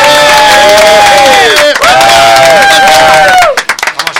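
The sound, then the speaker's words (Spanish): Loud, improvised cheering and clapping from a small group in a radio studio. Shouting voices with sweeping pitch ride over sharp handclaps, then the cheering cuts off near the end and only a few scattered claps and fading noise remain. “Está improvisado, los aplausos y todo, ¿eh?”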